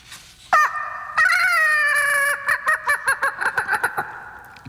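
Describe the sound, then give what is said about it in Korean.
A human voice imitates a rooster crowing loudly outside a window before dawn. A short yelp comes first, then a long held crowing note, then a rapid string of short, clucking bursts. “그것도 그냥 닭이 아니었습니다. 마치 마이크를 잡은 것처럼 쩌렁쩌렁 울리는 닭.”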